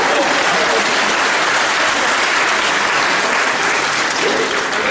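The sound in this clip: Applause from an audience: loud, dense clapping from many people, sustained at a steady level without pause for the full stretch.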